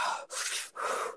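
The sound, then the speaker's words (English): A person takes a few deep breaths, with airy, breathy inhales and exhales alternating in a steady rhythm, fairly faint and with no talk. “I gotta take a few deep breaths.”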